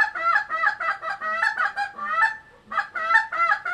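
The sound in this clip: Honking goose calls blown by a contestant at a goose-calling championship imitate a goose: a fast, loud series of many reedy honks and clucks, broken by a brief pause before another rapid burst.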